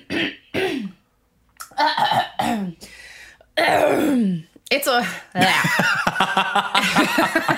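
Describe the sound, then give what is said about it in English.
A person clears their throat and coughs in several rough, throaty bursts separated by short pauses, with vocal sounds mixed in. “Keep all of that throat clearing in”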